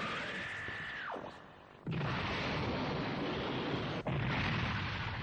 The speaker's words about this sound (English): The Cyclone Pulse Rifle goes off, vaporizing all of the crispy critters in that direction.